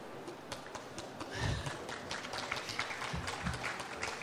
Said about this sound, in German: Das war ein Ausschnitt und der Applaus gilt Dorothy Parker aus der Geschichte »Da wären wir«.